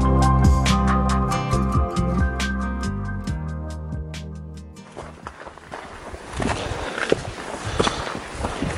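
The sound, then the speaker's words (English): A hiker walks on the Appalachian Trail in the White Mountains of New Hampshire, giving steady, loud crunching footsteps on the trail surface. The steps come in after a sustained tonal passage fades out. “the sound of a hiker there on the Appalachian Trail in the White Mountains of New Hampshire”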